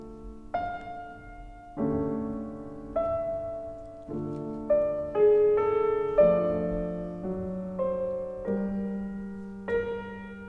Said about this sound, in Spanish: Y la canción de otoño, la de octubre, suena así, mira qué bonita.